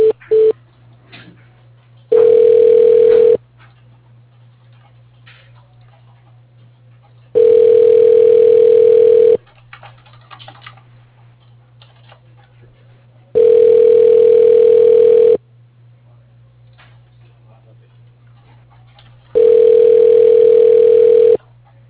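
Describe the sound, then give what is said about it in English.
Telephone line tone as a call is transferred to voicemail: four loud, steady tone bursts of about two seconds each, separated by pauses of several seconds, over a constant faint low hum. “Let me transfer you to his voicemail. Hold on.”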